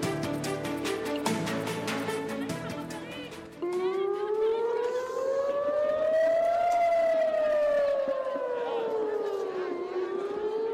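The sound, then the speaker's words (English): Air raid sirens wail over Tel Aviv. A single loud, steady tone slowly climbs and then sinks again, after a stretch of dense, busy sound at the start. “That's the sound of air raid sirens going off in Tel Aviv Thursday”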